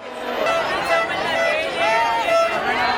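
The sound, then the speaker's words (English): Crowds cheer at the removal of the border fence between southern Spain and Gibraltar: a dense mass of shouting voices, with calls that swell and dip, sustained throughout. “That's the sound of crowds cheering. No, not Spain's victory at the Football World Cup, but the removal of a border fence that separated southern Spain from the British territory of Gibraltar for 118 years and the end of border controls.”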